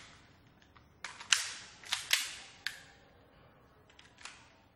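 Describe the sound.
Gunshots at a shooting range: several sharp, fairly faint cracks in an uneven sequence, each with a short decaying tail.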